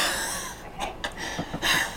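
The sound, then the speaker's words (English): Wheezy, laboured breathing from a man: several short, raspy breaths and snorting huffs in quick succession, fairly loud, with no talking. “You're right there, mate. You're wheezing a bit.”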